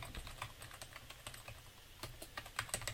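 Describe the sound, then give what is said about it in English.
Typing a URL on a computer keyboard: a long run of quick, irregular key clicks with a few louder taps near the end, and no talk. “Let's say I come back later and I want to log in. I just type in my URL again.”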